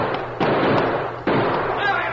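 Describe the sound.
Gunshots ring out in a radio western drama as a masked rider and his companion fire repeatedly at five men holed up in a counterfeiters' cave. Two sharp, loud blasts land about a second apart, each followed by lingering noise.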